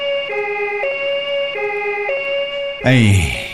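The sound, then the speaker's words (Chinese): An ambulance siren sounds a loud two-tone hi-lo wail, its alternating pitches repeating in a steady cycle before a different, louder burst of sound cuts in at the end. “高二金牙，快叫救护车。”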